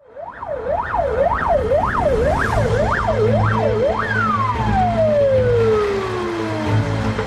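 Ambulance siren on city streets: a loud rising-and-falling wail repeated about eight times, then one long tone sliding steadily downward, over a low steady rumble.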